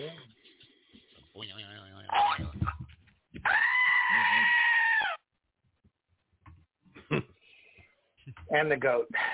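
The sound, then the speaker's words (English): A goat bleats once in a long, wavering, nasal cry of about two seconds, standing out loudly between shorter scattered sounds before and after. “And the goat.”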